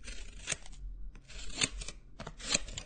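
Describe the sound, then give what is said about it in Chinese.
Scissors cutting through trousers: three faint, rasping snips at an even pace, with quiet fabric rustling between the cuts. “没事，有剪刀，用剪刀把你的裤子剪烂”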